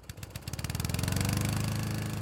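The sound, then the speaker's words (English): A brand-new lawn mower with an automatic accelerator runs with a rapid, rhythmic puttering. The pulses quicken over the first second and then hold a steady, even pace with no other sounds. “Victor's brand new lawnmower model able to think for itself thanks to the revolutionary Predictor automatic accelerator”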